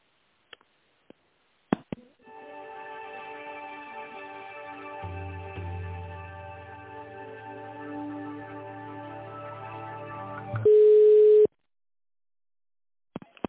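Telephone line tones play while a business call to an industrial gases company is transferred to a manager. A few faint clicks come first, then a sustained buzzy tone runs for about eight seconds with a lower hum joining midway. It ends in a short, loud, pure beep.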